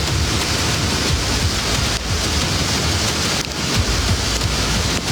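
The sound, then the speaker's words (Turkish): Heavy rain pours down in a downpour that flooded a large city, a loud, dense and unbroken hiss of water with no voices. “Mega kenti yağmur vurdu, sağanak sel getirdi”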